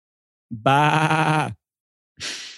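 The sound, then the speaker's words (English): Two goats bleating back and forth: one long, loud, wavering harmonic bleat, then a pause and a shorter, rougher, breathier call. “two goats talking to one another post game”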